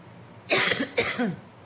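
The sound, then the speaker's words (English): A person coughs twice in quick succession, harsh and moderately loud against a quiet background. The second cough trails into a short extra hack. “sorry, the coughing. I think it's gone.”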